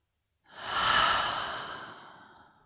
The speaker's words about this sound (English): And let's take another deep breath in and out.